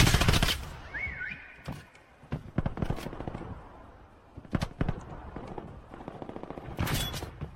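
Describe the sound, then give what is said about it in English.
Video game gunfire rattles in rapid automatic bursts mixed with single sharp shots, loud at the start and returning in irregular clusters with brief quieter gaps between them. “It's almost like he came and shot at me and didn't even shoot at the decoy.”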